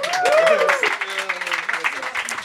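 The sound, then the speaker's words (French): An audience applauds at a monthly live music night in a pub. Many claps mix with voices shouting and cheering loudly over them. “Puis place à la musique, parce que c'est ce qu'on aime, on peut les applaudir.”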